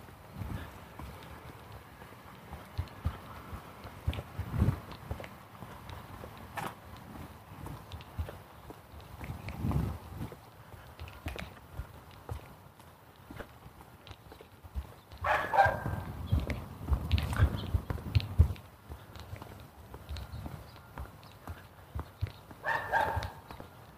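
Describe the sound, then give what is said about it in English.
Footsteps of a person out walking, with many uneven, fairly soft steps and scuffs across the whole stretch. A denser, louder run of steps comes midway, and no one speaks. “Walking, not talking. Sorry about that.”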